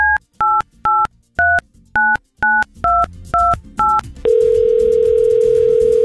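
A telephone call is placed with ten touch-tone dialing beeps in an even rhythm, followed by a loud, continuous single tone on the line.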